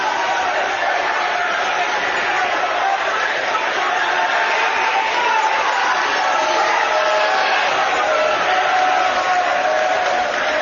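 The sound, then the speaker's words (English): Sports fans applauding inside a building as other spectators are ejected and escorted out, a broad, steady wash of crowd noise and clapping that stays loud and unbroken for about ten seconds. “the Consolidated fans are actually applauding behavior like that as they're escorting these folks out of the building”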